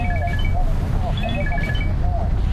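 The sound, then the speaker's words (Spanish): A telephone rings with a short repeating melody of bright electronic tones, heard under people talking. “Te están llamando, ¿no?”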